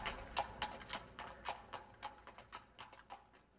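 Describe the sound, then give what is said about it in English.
Hooves of a ridden horse clip-clop in a steady, brisk rhythm as the rider leaves, with many crisp hoofbeats following one another closely and no voices. “I helped him to get back onto his horse, and he rode away without thanking me.”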